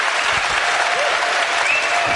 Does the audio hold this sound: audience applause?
yes